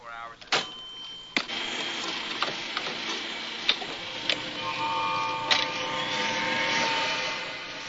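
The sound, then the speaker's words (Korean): Kitchen appliances run all at once, including a gas stove, washing machine and blender, making a continuous mechanical whirring and rumbling broken by several sharp clicks. “가스레인지, 세탁기, 믹서기. 부엌에 있는 전기용품을 죄다 작동시켜버립니다.”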